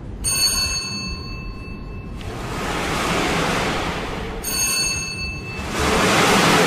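Numbered balls tumble inside spinning drums at a lottery draw, several drums turned together, making a loud, steady rushing rattle. Bright ringing tones sound twice over it.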